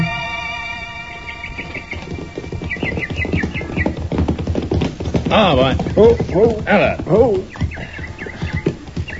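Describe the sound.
Horses' hooves clip-clopping as riders set off, a steady rhythmic trotting beat with voices and other sounds over it.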